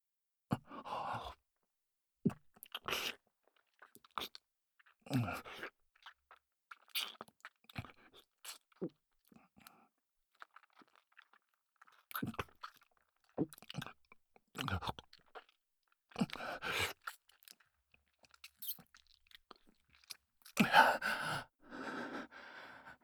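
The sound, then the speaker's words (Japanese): Deep kissing gives many soft, wet smacks and slurps mixed with breathy sighs and gasps. They come in irregular bursts with short pauses over about twenty seconds. The sounds are fairly faint, and nobody talks. “ディープキスも初めてだから。その、下手だったらごめんね。”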